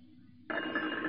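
A telephone starts ringing, breaking in abruptly after near silence with a bright, buzzing electronic ring that holds steady to the end.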